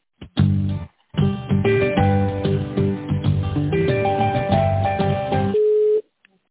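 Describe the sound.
Telephone-line hold tones play while a business call is transferred. A narrow, tinny melody of many sustained notes runs loud and steady for about five seconds, after a brief opening burst and a short pause, with no talking.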